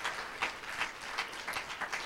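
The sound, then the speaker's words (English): A church audience applauds with dense, continuous hand claps that hold at a moderate, even loudness for the whole stretch. “Why don't you give the man of God one more hand clap?”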